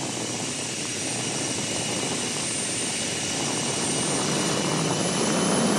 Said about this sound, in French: J'accélère, j'entends la turbine qui se met en route.